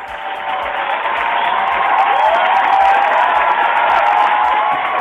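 Crowd applause with cheering, a dense, steady wash of clapping that holds an even loudness throughout without breaks.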